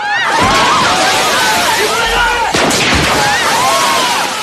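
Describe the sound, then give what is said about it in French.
Gunshots fired at a shop window during a robbery scene in a film: a few sharp, loud cracks cutting through voices and dense background noise. “Blanc s'empresse de répondre, vexé avant de faire feu sur la vitrine”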